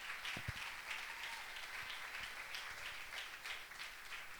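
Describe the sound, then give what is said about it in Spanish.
A church audience applauds, a faint, steady patter of clapping that runs evenly through the whole stretch without any voices over it. “Denle aplauso y yo descanso un poquito.”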